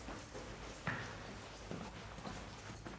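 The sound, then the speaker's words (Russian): Footsteps of someone climbing stairs: a few faint, soft thuds spaced out over a quiet, muffled background with no talk. “Егор поднимается по лестнице.”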